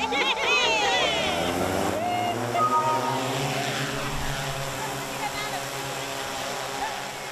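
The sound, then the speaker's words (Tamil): A small unmanned drone used to ferry medical test samples in Malawi flies overhead, giving a steady propeller buzz with shifting, whining harmonics that fade slightly over several seconds. “Drone என்று சொல்லப்படும் ஆளில்லாமல் பறக்கும் சிறிய ரக விமானங்களை பயன்படுத்தி பரிசோதனை மாதிரிகளை விரைவாக எடுத்துச் செல்லக்கூடியதாக உள்ளதால் பாதிக்கப்பட்டுள்ள மக்களை காப்பாற்ற முடியும் என தெரிவிக்கப்படுகிறது.”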